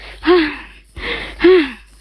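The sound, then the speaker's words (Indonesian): A voice imitates the out-of-breath panting of a child worn out from playing football: three loud, breathy gasps, two with a short voiced rasp, separated by brief pauses. “Napasnya terengah-engah.”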